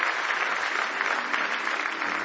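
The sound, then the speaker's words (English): A church audience claps hands in praise during a morning worship service, a dense, continuous round of clapping that stays at an even level throughout. “Give him one more hand clap of praise if you love him this morning.”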